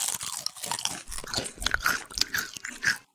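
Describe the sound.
Crunching and chewing on a spicy snack torn from its packet: many crisp, irregular crunches and bites follow close together at a moderate level, with no talk over them.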